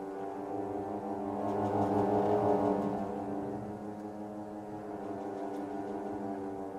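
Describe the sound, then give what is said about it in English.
A theatre organ sustains two close notes together to imitate aircraft propellers, giving a low droning tone with a pulsing, wah-wah beat. The tone swells louder in the middle, then eases back. “We can sort of simulate that on the organ by playing two notes that are close together. That sounds something like this.”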